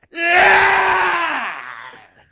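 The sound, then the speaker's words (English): A man lets out a loud, raw, sustained scream lasting about one and a half seconds, holding a strained high pitch before sagging lower and fading into breathy noise. “I'm not going to scream into the microphone, but I will scream and my wife's going to get pissed off.”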